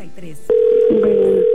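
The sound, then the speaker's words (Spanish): An unanswered telephone call gives a single steady ringback tone. It follows a brief voice and then holds at a constant pitch until the end. “Esme, no nos contesta. A lo mejor se durmió o anda en la calle”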